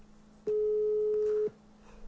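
A telephone busy signal sounds while someone is calling: one steady, mid-pitched tone lasting about a second, clear over a faint hiss.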